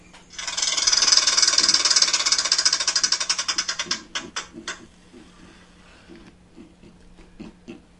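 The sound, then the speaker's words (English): A prize wheel spins with rapid, loud clicking that gradually slows into separate, spaced ticks, then trails off into a few faint, scattered clicks. “So, where did Derek Carr go? Spin that wheel.”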